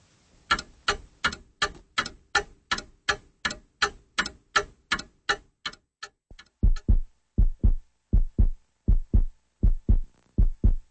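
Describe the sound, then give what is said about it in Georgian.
A heartbeat thumps in a steady rhythm: many quick, clicking beats, then slower, deeper, louder thuds in an even pulse with nothing else heard. “აი თქვენ გულისცემას ისმენდით.”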